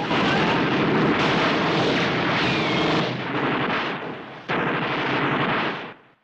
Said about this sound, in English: Both sides suffer casualties, with Allied soldiers being shot on the beach and German infantry being picked off while climbing down the ropes.